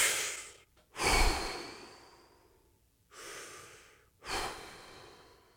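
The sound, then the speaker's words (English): Deep breaths, slow and audible: a few long, airy inhales and exhales, each swelling and then trailing off, separated by short pauses, with no talk. “Deep breaths. Deep breaths. Take a few with me.”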